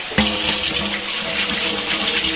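Tap water runs onto a cutting board used for chopping onions, a steady, fairly loud hiss and splash of flowing water heard alone throughout.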